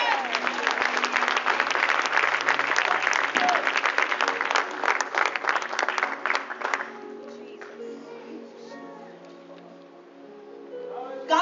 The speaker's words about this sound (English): Oh, come on, clap for God.